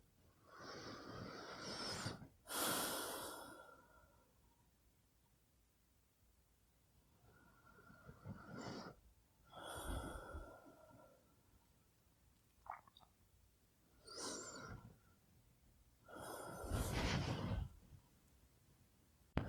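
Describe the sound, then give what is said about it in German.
Three slow, deep breaths, each a drawn-out inhale followed by an exhale, spaced by quiet pauses. The breaths are soft, airy and noisy, with no talking. “Dann tun wir das jetzt einfach mal, also dreimal tief ein- und ausatmen.”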